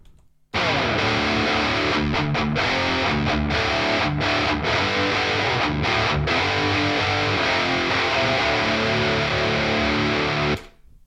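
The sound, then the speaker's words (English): A distorted electric guitar riff with subtle room reverb plays loud and steady, punctuated by several short, sharp stops. It cuts off near the end, leaving a brief ringing tail. “I was going for more of a roomy sound, so I added a room reverb to the guitars just to give it a bit more of space,”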